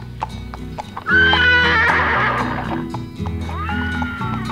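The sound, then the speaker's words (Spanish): A white horse gives a long, loud whinny and then a shorter second call, over steady clip-clopping hoofbeats. “porque el caballo blanco que trae el esclavo es el regalo por sus 8 años. Sin temor se sube al animal. Ha visto montar a los llaneros. ¡Señor amo! ¡Tenga cuidado con ese animal!”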